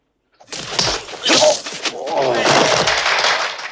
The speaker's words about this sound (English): Roper is punched down again.